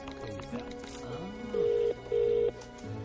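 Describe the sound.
A mobile phone is dialed, giving two identical steady electronic tones of the same pitch, each under half a second, over a busy background bed.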